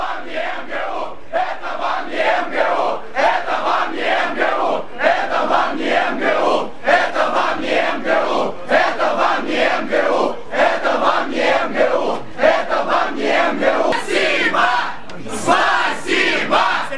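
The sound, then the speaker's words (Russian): A crowd ironically chants "thank you" in Russian at a vice-rector leaving a meeting hall, many voices shouting in loud, rhythmic, repeated bursts that continue without a break. “когда они начнут скандировать «спасибо», это такое это ироническое спасибо.”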